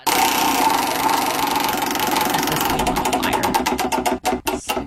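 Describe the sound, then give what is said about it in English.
A prize wheel is spun to pick a food for a taste challenge. It starts as a fast, dense clatter of clicks, then slows into a few separate sharp clicks near the end, with no talk. “So let's go ahead and spin the wheel.”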